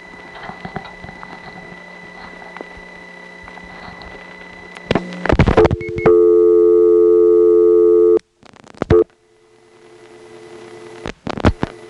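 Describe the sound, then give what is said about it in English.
Bursts of sharp relay clicks come from a telephone exchange switching as 425 is dialed. A steady electronic tone follows, then more click bursts over a faint background hum. “So we'll see what's on the 5 level by dialing 425.”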